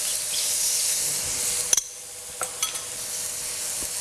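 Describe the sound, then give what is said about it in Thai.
Shrimp sizzling as they grill in a frying pan, with a steady bright hiss broken by a few sharp clicks of utensils against the pan. “ถ้าเราไม่มีเตาถ่านนะคะวิธีการง่ายๆก็คือเอาไปเรียกว่าย่างในกระทะนะคะหรือนาบในกระทะนะคะก็สุกเหมือนกันนะคะ”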